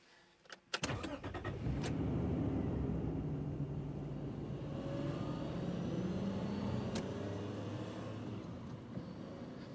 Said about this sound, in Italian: Metti moto e parti.